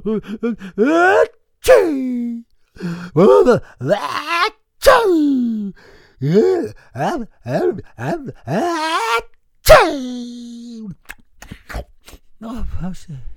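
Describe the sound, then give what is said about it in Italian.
Three sneezes acted out by a voice, each a sharp, explosive burst set among drawn-out groaning and gasping vocal sounds, with pauses of silence between them. “E fece altri tre starnuti.”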